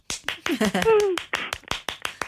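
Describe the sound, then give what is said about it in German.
Sharp hand claps at a poetry reading event come in a quick, slightly irregular series. A voice is briefly heard over the early claps. “Warte, ich klatsche.”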